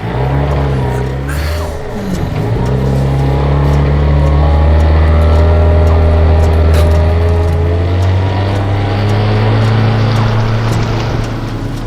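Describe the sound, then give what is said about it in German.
A car drives back toward the beach: a steady, loud low engine drone with a strong hum and a brief dip in tone early on before it settles into an even cruise. “Gut, dann fahre ich euch jetzt zum Strand zurück.”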